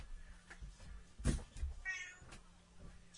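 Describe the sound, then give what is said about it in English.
A house cat meows once, a short mid-pitched call rising out of faint low background noises, with no one talking. “Whose cat? No, that's my cat. Whose cat was that? Oh, does she want to go out?”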